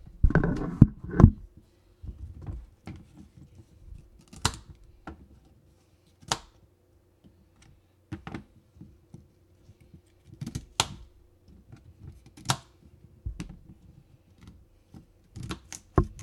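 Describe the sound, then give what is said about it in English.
Knife chopping celery stalks into three pieces each on a board, many crisp, sharp cuts in an irregular rhythm with short pauses between bursts. “you're going to cut each celery stalk into three pieces. Yes, three pieces. So that's what we're doing now. We're going to cut the celery.”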